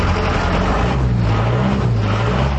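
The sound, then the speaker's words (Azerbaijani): A city bus on route 14 approaches its stop with a loud, steady engine rumble, a low continuous drone running through the whole stretch. “Baxın, indi 14 nömrəli marşrut yaxınlaşır.”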